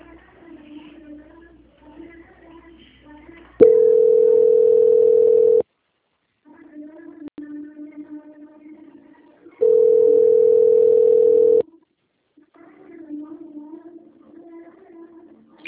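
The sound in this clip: A steady telephone line tone while a call is being transferred, heard as two long, even, loud tones of about two seconds each, separated and surrounded by softer, lower background sound.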